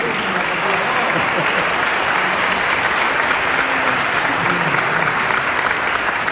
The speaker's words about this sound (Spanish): merecen un aplauso